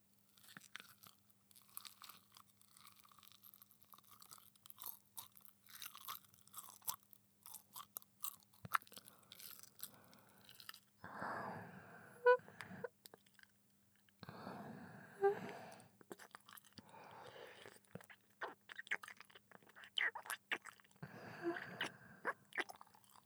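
Chewing on a bite of food: many soft, moist, crunchy chews over a quiet background, with a few louder crunches standing out midway.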